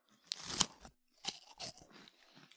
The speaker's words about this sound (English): I'm going to try not to eat it into my mic. I'll eat it into the mic.